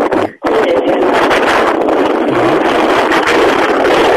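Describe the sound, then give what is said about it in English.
Wind blows on a microphone outdoors at a running race, making a loud, steady, rough roar that fills the whole clip after a brief dip near the start. “Is there a bit of wind there, is there? Yep. We can hear it.”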